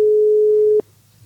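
A single steady telephone call tone sounds once on an outgoing call, a flat mid-pitched beep lasting under a second before cutting off into quiet line hiss.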